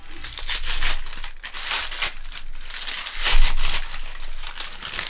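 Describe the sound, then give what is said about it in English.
Crinkling and tearing of wrapping paper as a present box is unwrapped, a continuous rustle with louder crackling bursts near the start and again about two-thirds through. “I promised we'd unwrap this.”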